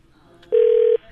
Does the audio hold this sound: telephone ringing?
yes